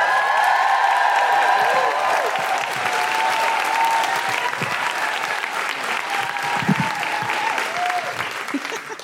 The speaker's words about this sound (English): Please welcome to the stage and make wonderful guilty feminist woohooing noises